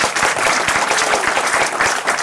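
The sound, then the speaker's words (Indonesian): Applause from an audience at a talk: dense, continuous clapping that holds an even loudness for the whole stretch, with no voices rising above it. “Tepuk tangan untuk Mas Ilham.”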